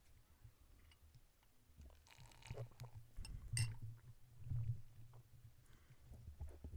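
Someone takes a quiet sip of a drink. A faint clink sounds midway, with soft slurping and swallowing around it over a low background hum.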